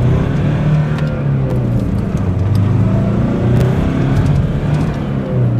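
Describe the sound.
A car engine runs in a continuous, loud low drone with steady rumbling throughout and no clear revving peaks.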